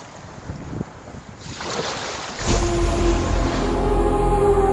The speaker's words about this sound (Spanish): Así suenan las playas de Hawái, escuchando Espacio en Blanco.